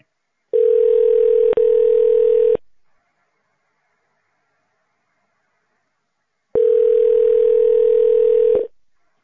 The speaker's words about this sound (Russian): Если вы знаете внутренний номер сотрудника, наберите его в тональном режиме.